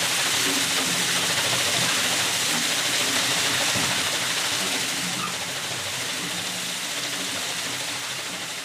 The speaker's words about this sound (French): nous sommes devant la façade avec la roue à eau qui entraîne le moulin toujours l'hiver pour l'huile.